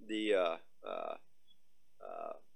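A phone buzzing with incoming messages gives three buzzy bursts: a longer, louder one first, then two shorter ones after pauses.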